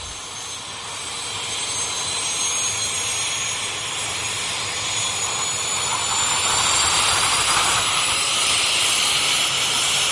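An airplane takes off with a broad jet-engine roar that builds steadily in loudness over about ten seconds, with no voices.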